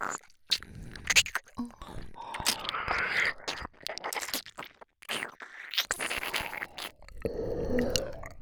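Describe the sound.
Wet ear licking in an ASMR roleplay produces close, sticky slurps, smacks and squelching clicks in irregular bursts, broken by brief pauses, with moist crunchy textures throughout.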